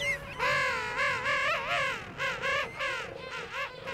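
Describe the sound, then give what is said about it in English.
Hungry chicks and their parents calling on South Georgia Island: many loud, overlapping, warbling whistled calls that swoop up and down in pitch, repeating in quick succession. “Mark recorded these hungry Oakum boys and their royal mothers and fathers on South Georgia Island”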